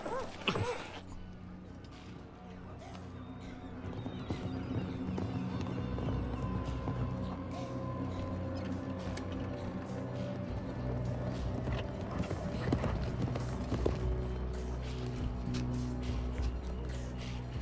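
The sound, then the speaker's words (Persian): Hooves of riders' horses approaching clop in a continuous run of many beats, growing louder after the opening seconds and then staying steady. “سوارکارا نزدیک میشن.”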